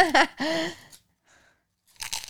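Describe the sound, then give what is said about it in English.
Fortune cookies being cracked open, spilling crumbs: three loud, crisp crunching bursts with a faint crumbly rustle in the quiet gap between them. “We're opening our fortunes. ASMR ready. Oh, there's crumbs everywhere.”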